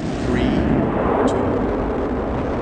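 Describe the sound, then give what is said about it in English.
Space Shuttle Endeavour's rocket launch blasting off from Florida, a loud, dense, continuous roar that holds steady and rumbles throughout. “3, 2, 0, and liftoff for the final launch of Endeavour. That is Space Shuttle Endeavour, blasting off from Florida this morning on the second-to-last shuttle mission ever.”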